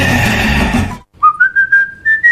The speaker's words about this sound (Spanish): ¿Qué es ese sonido? Ah, sí, es el silbido corajudo.